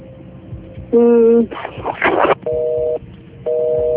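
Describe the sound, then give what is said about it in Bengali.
A busy signal after a phone call is cut off: three steady, evenly pitched beeps of about half a second each, separated by pauses. A rough burst of noise falls between the first two, over a low background murmur. “আমার মনে হয় আমাদের ফোনটি কেটে গিয়েছে এই মুহূর্তে।”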